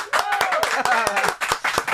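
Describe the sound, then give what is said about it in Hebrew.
Brisk clapping from people gathered in a radio studio, with many sharp hand claps in a quick, uneven rhythm. Voices can be heard between and under the claps. “כפיים.”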